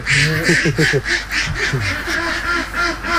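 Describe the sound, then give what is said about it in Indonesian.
Many ducks quack inside a large cage that holds up to a thousand birds, a dense, loud, continuous chorus of overlapping nasal quacks with no pauses. “Untuk satu kandang seperti ini, biasanya kapasitas bebeknya mencapai 1.000 ekor bebek.”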